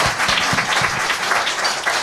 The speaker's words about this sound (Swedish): ge en applåd till Kristine Møen Wisløff